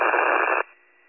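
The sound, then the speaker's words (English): A harsh burst of radio static lasts about half a second, then cuts off abruptly and leaves only a faint residual hiss. “Your message is off static. Still off static.”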